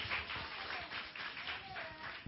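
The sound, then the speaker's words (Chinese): Fairly quiet applause from a church gathering welcoming a volunteer who raised a hand. The clapping is a steady, scattered patter that keeps a moderate level throughout. “哦，举手了，来，我们掌声欢迎，”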